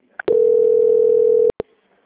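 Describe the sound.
A single steady mid-pitched telephone tone sounds during a bank call as the line is transferred, holding evenly for just over a second between short sharp clicks, with no talking.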